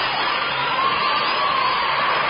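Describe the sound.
Recorded audience applause played from a record: a dense, continuous wash of clapping and crowd noise, steady and loud from start to finish.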